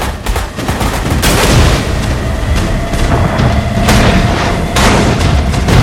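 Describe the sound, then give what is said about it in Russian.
Naval guns fire and a shell hits in a war-film sea battle, as the destroyer Greyhound scores a direct hit on a submarine. A few loud booming blasts cut through a dense, roaring, crackling rumble that never lets up. “Прямое попадание одного из орудий Грейхаунда. Подлодка окутывается черным дымом и тонет.”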